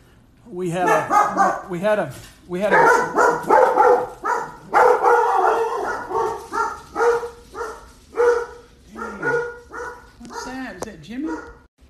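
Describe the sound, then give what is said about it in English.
Dog barking indoors at home, interrupting a conversation: many loud, rapid barks and yips in uneven bursts, some rising into whiny, whimpering tones. “sorry for the dog interruption”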